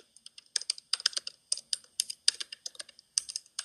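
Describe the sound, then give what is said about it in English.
Rapid, irregular typing on a computer keyboard: many sharp clicks in quick succession with short pauses between bursts, and no voices. “I'm typing this out.”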